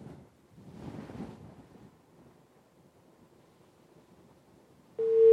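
A telephone busy tone follows a disconnected call on a phone-in line. After a stretch of faint hiss, a steady, low-pitched tone starts abruptly at the very end.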